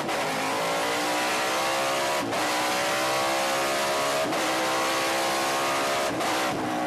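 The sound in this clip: A car engine revving hard on a fast, sporty lap of a race track. The loud, continuous engine note climbs steadily in pitch, then breaks and drops at three gear shifts before climbing again.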